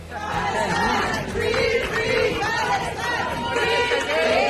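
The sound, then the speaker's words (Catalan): A crowd chants and shouts in the arrivals hall of Barcelona El Prat airport as a Palestinian activist with a Spanish passport comes out. Loud voices repeat phrases over a continuous hubbub. “Un so enregistrat a la sala d'arribades de l'aeroport del Prat de Barcelona en el moment en què ha sortit l'activista palestí amb passaport espanyol Saif Aboukeshek”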